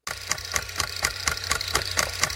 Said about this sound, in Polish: Coś ci sprzęga? Sprzęgło ci szwankuje?